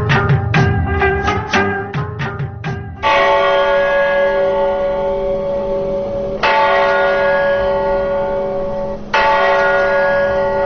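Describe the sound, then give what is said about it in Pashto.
Peace bell at the United Nations headquarters in New York ringing: a quick run of bright metallic strikes, then three slow, deep strokes that each hum and ring out at length, with no voices. “دا د ملګرو ملتونو په مرکزی دفتر نیویارک کې لګیدلی د سولې د زنګ په نامه د هغه زنګ آواز دی”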